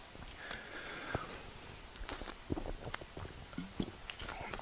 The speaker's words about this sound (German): Entschuldigung, ich muss mal einen Schluck trinken.